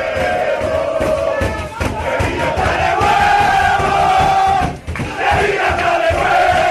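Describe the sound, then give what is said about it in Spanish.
A Seville football team celebrates a derby win in its dressing room, a dense, loud crowd of male voices shouting, roaring and chanting continuously, with a brief dip partway through before the din resumes. “Y así suena la alegría del vestuario sevillista.”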